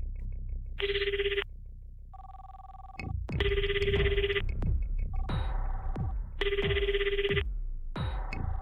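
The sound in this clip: An unanswered call to a home phone rings in repeated electronic bursts, alternating with a steadier lower tone over a soft rhythmic pulsing. The whole sound stays fairly faint.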